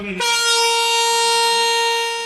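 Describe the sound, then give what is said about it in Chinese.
A freight train horn blares as a container train loaded with nearly 1000 tons of PVC departs. It sounds as one long, steady, loud blast of constant pitch, starting abruptly and holding for about two seconds. “随着汽笛鸣响，这辆满载近1000吨聚氯乙烯的中亚班列西宁至胡志明缓缓驶出。”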